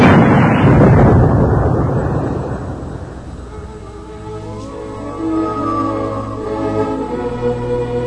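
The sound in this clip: A ship's cannon fires during a naval battle with one massive boom. Its deep rumble swells loudly at first, then slowly fades over a few seconds into a quieter low drone.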